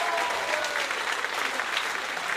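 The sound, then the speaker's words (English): Audience applause at a live show, with dense, steady clapping that carries evenly through the whole stretch with no clear break. “Round of applause for Ola”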